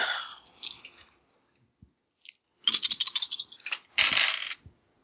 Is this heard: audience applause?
no